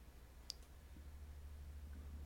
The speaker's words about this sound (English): The Tomorrow War. I don't even know what that is. Let's click on it and see.